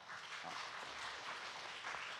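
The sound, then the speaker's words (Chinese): Faint, even applause from a church audience, a soft steady wash of clapping that runs the whole short stretch without pause. “我想我们都应该感谢我们的弟兄姐妹，我们给大家鼓掌好不好？”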